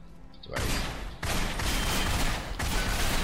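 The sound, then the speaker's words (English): Video game gunfire rattles in loud, harsh bursts that break off and restart a few times, with a quiet lead-in before the first volley. “So I can use my guns.”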